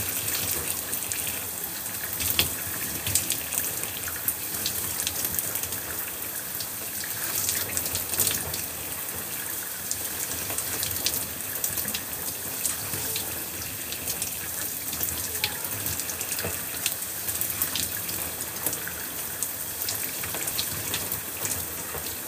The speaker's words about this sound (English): before I do my exfoliating and routine, I'm going to wash out my face.